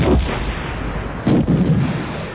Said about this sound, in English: The fighter approaching the corvette was hit by two quad-link bursts.